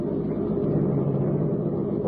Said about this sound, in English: Rick Reed pressed the button. The great car roared into life.